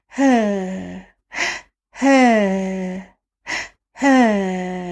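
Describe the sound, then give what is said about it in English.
A voice imitates a baby's noisy, laboured breathing: three long, loud groaning exhalations that slide down in pitch, alternating with two short, sharp inhaled gasps, with no other sound. “So noisy breathing can be a sign of respiratory distress.”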